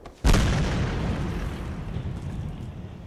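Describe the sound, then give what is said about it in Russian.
A sudden explosion goes off behind a man standing on railway tracks. A sharp, loud blast is followed by a heavy rumble that fades slowly over the next few seconds, with no voices. “от резкого взрыва за спиной пригибается к земле”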